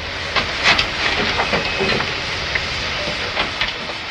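A coal-fired steam locomotive: a loud, continuous broad hiss of steam with irregular clanks and sharp clicks scattered over it, without voices.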